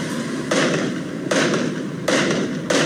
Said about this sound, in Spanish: A ver, escuchemos los fuegos artificiales.